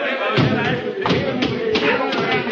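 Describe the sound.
A heavy thud as a person drops about six feet down onto a ship's hatch, with muffled voices around it.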